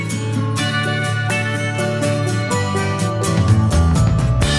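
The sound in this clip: A folksy, calypso-flavoured tropical song plays steadily with a full band, bright layered harmonic tones and a steady beat, loud and continuous without any talk over it.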